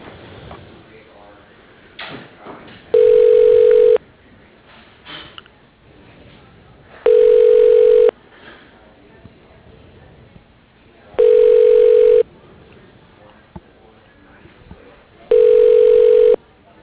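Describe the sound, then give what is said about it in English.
Telephone ringback tone while a call is transferred to voicemail: four evenly spaced electronic tones, each about a second long, over a quiet line with faint voices between them. “Yeah, I'll transfer his voicemail.”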